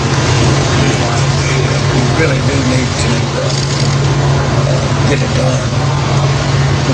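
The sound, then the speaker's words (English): A Harley motorcycle engine runs with a steady, loud, low rumble that holds without a break for about seven seconds. “Is he riding off with the Sons of Anarchy? I don't know. They got him on the back of a motorcycle.”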